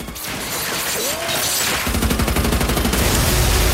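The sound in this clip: A machine gun fires from behind a car trunk: a loud, rapid, continuous burst of automatic gunfire that starts partway through, preceded by a rumbling, whooshing roar.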